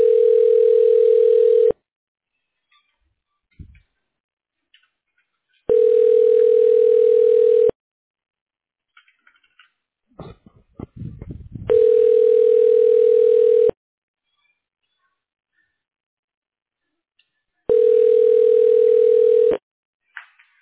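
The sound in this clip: A telephone rings back while a call is being transferred: four steady electronic ring tones of about two seconds each, evenly spaced, with brief faint noises in the gaps.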